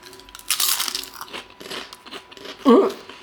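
Biting into a green, spinach-like vegan snack: a few crisp crunches and softer chewing noises, with a short voiced murmur near the end.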